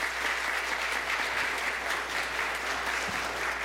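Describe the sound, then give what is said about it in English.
An audience at Highland Baptist Church in Tullahoma, Tennessee applauds during a deacon ordination service, a dense, steady wash of many hands clapping at even loudness throughout. “Let's give the Lord a hand.”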